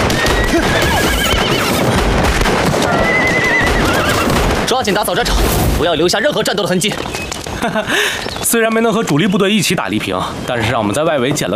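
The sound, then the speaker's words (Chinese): Horses neighing and hooves clip-clopping, from a small group of captured horses after a battle to take a county town. Several high whinnies and hoof beats sound within a dense, loud mix of other sound. “是啊，这几匹马儿真是不错。”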